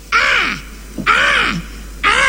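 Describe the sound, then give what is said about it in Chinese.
A human voice imitating a crow cawing, giving three loud, drawn-out nasal caws, each sliding downward in pitch and evenly spaced about a second apart, with the last one cut short. “天上飞一小乌鸦”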